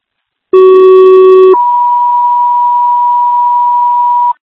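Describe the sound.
Fire dispatch alert tones for a medical alarm: a loud, buzzy lower tone of about a second, then a long, steady, higher pure tone lasting nearly three seconds, with no talk.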